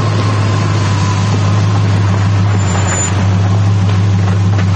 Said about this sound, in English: At the Yahats Motel, Rudy walks out as a squad car approaches.